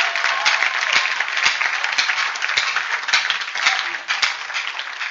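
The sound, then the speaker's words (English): Dense, continuous hand clapping from a church audience during a sermon. The clapping stays loud and steady throughout, with no talking over it. “Clap your hands for this party.”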